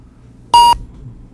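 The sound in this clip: A single short, high-pitched whistle beep on a phone line, loud and abrupt, cutting through a faint low background hum.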